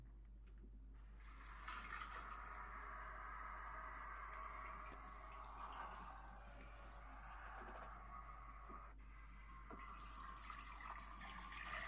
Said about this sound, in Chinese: 先生，你今天水温还可以吗？好，那我就帮您冲掉了。